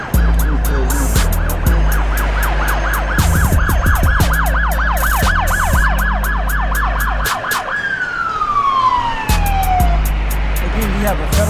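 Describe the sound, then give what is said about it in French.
A police car siren sounds at the exit of the Five Points metro station in Atlanta. It gives a loud, rapid yelp that swings up and down over and over, then a long falling wail, over a low, steady rumble. “pendant qu'on parle à la sortie du métro Five Points d'Atlanta, il y a une voiture de police qui a arrêté un individu”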